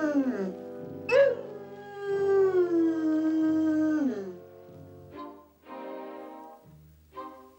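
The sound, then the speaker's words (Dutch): A grieving dog howls in long, wavering, mournful cries, one drawn-out howl sliding down in pitch, with shorter whimpering wails and brief pauses between them. “Diep bedroefd huilde Jock om zijn oude vriend.”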